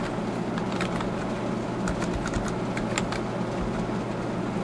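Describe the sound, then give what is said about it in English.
Typing on a computer keyboard, with light irregular key clicks under a steady background hum and hiss. “And then I'm going to type in here, declare”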